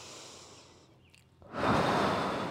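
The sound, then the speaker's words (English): A deep breath during a breathing exercise: a soft, airy breath fades into a brief pause, then a louder rushing breath follows. “Big breath in. Breathe out. One more.”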